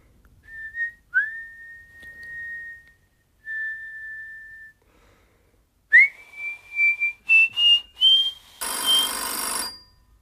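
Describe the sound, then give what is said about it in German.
A man lying on a bed softly whistles a melody, holding a few long clear notes and then a quick run of short notes that climb in pitch, ending with a brief burst of hissing noise. “Gelassen legte er sich wieder aufs Bett, rauchte und pfiff leise eine Melodie.”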